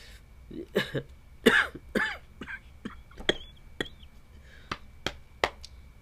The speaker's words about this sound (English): sorry for the coughing again. This has just been my life for the past week. I've just been like coughing while I talk.